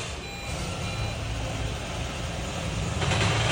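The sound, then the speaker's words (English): A vehicle engine under a mashed accelerator during a check of a customer's noise complaint gives a loud, steady roar with a thin high whine, swelling louder near the end. “Hit start of the vehicle, here we go. I'm going to mash the accelerator.”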